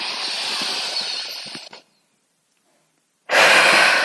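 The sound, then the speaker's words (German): A deep breath in through the nose and out, heard as a long, loud, airy rush. After a short silence, another strong breath begins. “atme einmal ganz tief durch die Nase ein und atme ganz tief wieder aus. Mach's noch einmal.”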